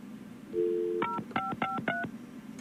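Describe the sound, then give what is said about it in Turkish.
A telephone number is dialed: a short steady tone gives way to a quick run of several keypad beeps in uneven rhythm, all faint. “Bir saniye ben bir arayayım.”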